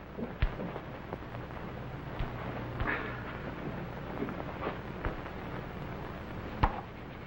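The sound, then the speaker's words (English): Fire burning in a hearth, a quiet steady hiss broken by a handful of sharp, scattered crackles and pops, with no voices over it. “Please to warm self by humble fire.”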